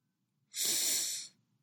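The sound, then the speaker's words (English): A man takes one deep, pained breath, a single airy rush of breath lasting under a second, fairly quiet and heard alone. “Wayne takes a deep, pained breath”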